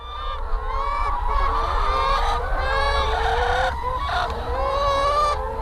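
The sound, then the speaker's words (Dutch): Chickens clucking inside a hot poultry barn holding about 65,000 birds, a dense, continuous chorus of overlapping cackles and squawks that stays loud and busy throughout, with no talk over it. “je hoort de kippen kakelen. Maar wij noemen dat praten. En hoe meer geluid, hoe meer die kip praat, hoe tevreden die is.”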